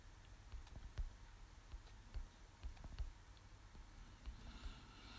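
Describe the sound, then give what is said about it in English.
Faint keystrokes on a computer keyboard patter in an uneven rhythm, soft scattered clicks sounding on their own without any talk. “What am I typing?”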